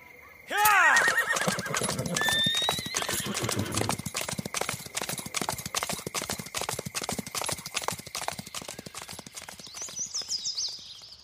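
A horse whinnies loudly, then hooves pound in a quick, steady, galloping rhythm that continues to the end, loud at first and slightly fading.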